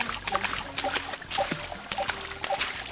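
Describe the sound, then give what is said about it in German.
Water splashes and dribbles in a kitchen sink as a hand paddles around in it: irregular small splashes and trickles, fairly quiet, with light clinking sounds mixed in. “Kann man auch so ein bisschen rumpatschen im Wasser.”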